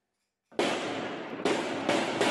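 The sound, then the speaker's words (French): Live-ammunition gunfire in a city neighbourhood of Valence, a loud volley that breaks abruptly out of silence into dense crackling, with three further sharp bursts following in quick succession. “Des tirs à balles réelles dans un quartier de Valence.”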